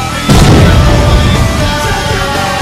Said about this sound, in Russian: Лови гранату, гад!